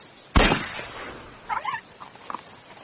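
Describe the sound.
A single gunshot fired at a small terrier on a track: one sharp, loud crack with a decaying tail, followed by quieter, fainter sounds.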